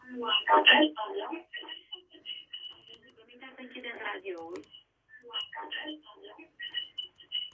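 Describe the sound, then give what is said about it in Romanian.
A radio plays behind a telephone caller's line. Its sound is thin and narrow-band and runs almost continuously, with a few short breaks. “Avem rugămintea să închideți radioul.”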